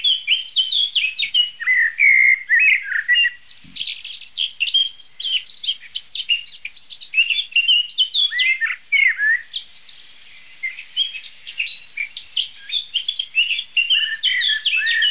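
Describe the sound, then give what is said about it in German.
Common blackbird singing: bright, varied whistled phrases follow one another steadily, with brief pauses, for the whole stretch. The song is fairly loud and heard alone, with no voices. “Die Amsel schön getragen in Dur, weich und wohltuend.”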